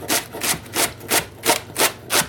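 A knife cuts leeks in half and slices them, making seven evenly spaced rasping strokes in a steady rhythm with no talk.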